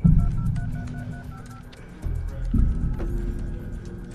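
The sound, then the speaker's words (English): A telephone number is dialed for a traced call: a series of short touch-tone beeps over a low background rumble. “dial the number.”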